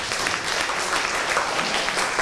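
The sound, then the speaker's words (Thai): Applause from students for a classmate, dense, steady clapping that holds at an even level for the whole moment, with no voices over it. “มีหลักเกณฑ์และแก้ปัญหาได้จริงปรบมือให้เพื่อนหน่อยครับ”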